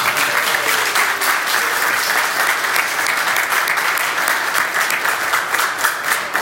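A church audience applauding after a baptism of brothers: dense, steady clapping that carries on evenly for several seconds.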